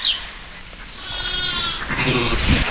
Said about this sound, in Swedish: Hur gamla är de här små lammen? De är 4 dagar gamla.